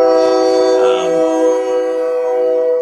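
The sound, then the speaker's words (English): A train horn blares as a train goes by. It is a loud, sustained, chord-like tone that holds steady throughout. “That's our train going by.”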